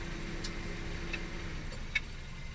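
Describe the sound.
A car engine idles in a low, steady hum. The car has a manual gearbox and a manual handbrake. Faint, sparse ticks sound over the even drone, and no voices are heard.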